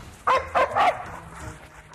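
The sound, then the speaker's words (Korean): A reactive dog barks aggressively at another dog: three sharp, quick barks close together, followed by quieter background noise. “다행이라고 해야 하는 건지 강아지가 타깃인데요. 인정사정 볼 것 없는 타견 반응입니다.”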